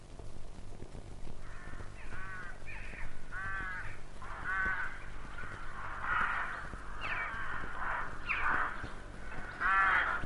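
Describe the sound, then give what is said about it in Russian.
Rooks caw on their return in early spring, many harsh, rasping calls in irregular bursts that overlap at times, over a faint steady low hum. “Грачи открыли весну. Зиму грачи провели на юге нашей страны.”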